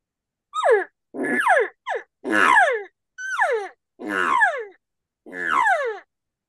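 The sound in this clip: A man imitates a cow's estrus buzz call by sputtering his lips. It comes as seven buzzy, grunting bursts of uneven length, each sliding down in pitch, with brief silences between them.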